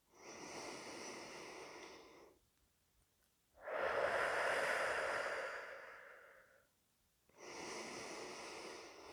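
Slow, deep breathing during a guided breathing exercise: three long, airy breaths in and out with quiet pauses between them. The last breath is cut off, and no one speaks.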